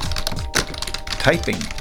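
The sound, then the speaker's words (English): Typing on a computer keyboard: an irregular run of quick, sharp clicks and taps lasting a couple of seconds. “so let's look this up on the computer real quick.”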